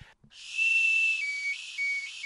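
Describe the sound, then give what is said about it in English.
A toy weenie whistle is blown in one long, shrill, high-pitched tone. The note holds mostly steady, with a couple of brief dips in pitch before it carries on to the end. “Do you happen to have weenie whistles? We do have weenie whistles. So I have one for you here,”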